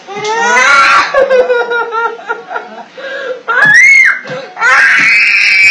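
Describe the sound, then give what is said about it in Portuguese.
A frightened young autistic girl cries in pain, distressed by fireworks, in loud wailing sobs and high, strained cries. A sharp rising wail near the middle gives way to sustained, piercing crying. “Assustada e com dores, a menina chora.”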